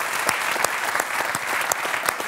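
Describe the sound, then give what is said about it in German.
Audience applause: thick, continuous clapping with a few sharper individual claps standing out, staying at an even, loud level throughout. “Also, ihr Applaus.”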